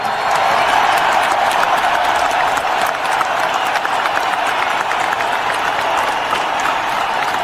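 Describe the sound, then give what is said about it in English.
A stadium crowd cheers and applauds during the pregame coin toss as the US president is welcomed. It is a dense, continuous roar of clapping and voices that stays loud and even throughout. “It was a nice moment. There was a lot of cheering in that stadium.”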